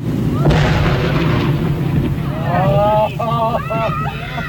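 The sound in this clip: Half a ton of dynamite blowing up a dead whale on a beach: a dull blast opens a sustained low rumble under heavy wind noise, with people's voices calling out over it toward the end.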